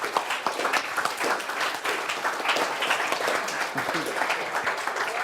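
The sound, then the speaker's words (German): Audience applause at a youth hackathon event after thanks to participants: lively, dense clapping from a crowd with individual sharp claps standing out, steady and continuous for the whole stretch. “Applaus”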